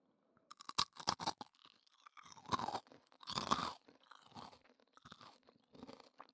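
A cheese-coated snack that is slightly stale is crunched and chewed, making many quiet, dry crackling bites in irregular bursts with short pauses between them and no talking.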